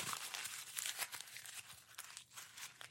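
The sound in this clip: A clean white sheet of paper is crumpled and wadded up, producing continuous crackling and crinkling for several seconds, with many sharp crackles and no talk.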